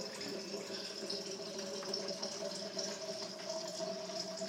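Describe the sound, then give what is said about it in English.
Water fills a water bottle with a steady rushing flow and a faint tonal hum, holding even in level without break throughout. “I'm just getting Sean's water bottle filled up. That's the sound you're hearing there.”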